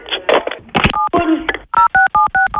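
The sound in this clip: Touch-tone beeps from a telephone as a number is dialled to call the police. A quick run of several short, sharp two-tone beeps follows some brief voice and handling noise.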